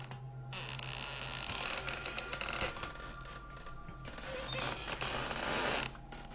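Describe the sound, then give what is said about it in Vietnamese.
Two doors swinging back and forth, creaking: a continuous rasping, scraping texture that runs throughout, dense and fairly steady, rising slightly in loudness near the end. “Hai cánh cửa còn đu đưa qua lại, tạo ra những âm thanh cọt kẹt ghê người.”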